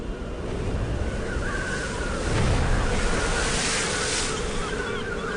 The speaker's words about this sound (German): Die Brandung schlägt gegen die Felsen.